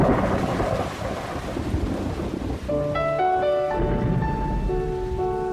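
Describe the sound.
Heavy rain pours on a Paris boulevard in a film scene, a dense, steady hiss that continues throughout, with music entering partway through.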